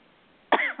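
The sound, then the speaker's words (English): A single sharp cough bursts out after half a second of near-silence, a person choking up while reading a letter aloud; a brief trailing catch of breath follows right at the end. “There's a reason for that cough. That one choked you up.”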